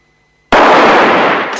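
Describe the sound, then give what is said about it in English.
A gunshot blast as two men fire at the same moment in a western street duel: one sudden, loud crack with no separate second shot, followed by a long, noisy rumbling tail that fades slowly. “Both men shoot at the same time, but it's Valance that falls to his knees.”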